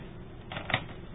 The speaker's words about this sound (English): I'm going to hit record on these tape recorders here.